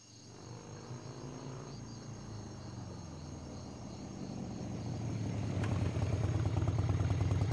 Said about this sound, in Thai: เสียงมอเตอร์ไซค์ไผล่ะ